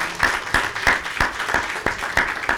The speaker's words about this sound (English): Wow, wasn't that wonderful, everybody? Wasn't that amazing? Yeah, let's give them another hand.